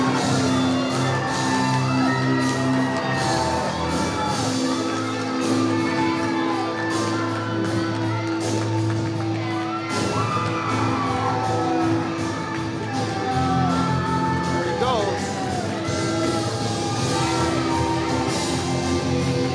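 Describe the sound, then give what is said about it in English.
Crowd cheering and whooping in a sustained ovation at a live event as a man enters with a NASCAR flag. A loud, unbroken roar mixed with shouts runs throughout. “The crowd is still going. They love this guy. That is the loudest ovation of the night.”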